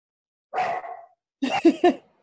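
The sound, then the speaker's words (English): Pet dogs bark: one drawn-out, wavering bark, then after a short gap a quick run of three sharper barks. “Those are my dogs, sorry.”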